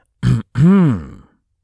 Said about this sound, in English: Clear throat significantly.